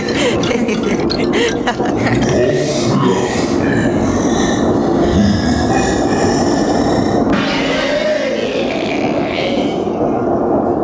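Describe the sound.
A train running on rails produces a loud, steady rumble and rattling clatter that continues throughout, with a noticeable change in its texture shortly before the end.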